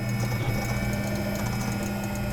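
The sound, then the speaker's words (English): Custom-built 3D printer used for making prototypes running steadily, a continuous mechanical whir of moving gears and motors with a light, busy ticking texture throughout. “That's the sound of Gillette's custom-built 3D printer. He designed it to make prototypes for their clients faster and cheaper than any of the other printers down here.”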